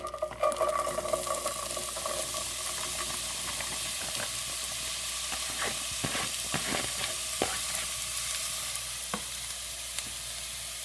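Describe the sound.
Corn chips sizzle and fry crisply in a pan for migas, a steady hiss with scattered pops and occasional clicks of stirring.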